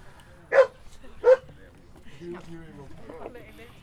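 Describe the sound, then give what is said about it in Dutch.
A person imitates a dog barking with two short, sharp vocal barks in quick succession, followed by people talking. “De hond blijft blaffen zodat er genoeg mensen zitten. Ga maar blaf. Blaf.”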